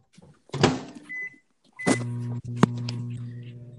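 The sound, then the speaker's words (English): A microwave oven starting up: a clunk and a couple of short beeps, then a steady low electrical hum running to the end, broken by one sharp click. “You're going in the microwave, honey. Good luck.”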